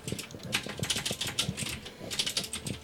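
Typing on a computer keyboard: a quick, irregular run of many light key clicks, fairly faint, with no voices.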